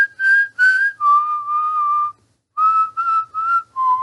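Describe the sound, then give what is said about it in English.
A person whistles to imitate a movie scene: two short higher notes, a long held lower note, a pause, then several quick notes that end on a lower pitch, clear and alone. “Right, like they're whistling, and then when Dick walks in, Bender of course goes,”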